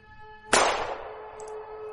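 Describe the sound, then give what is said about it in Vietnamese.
A single gunshot fired into the ground, heard as one sharp crack with a ringing, metallic tail that fades over about half a second, fairly faint overall. “cho nên tôi đã quyết đoán bắn một viên đạn xuống dưới đất.”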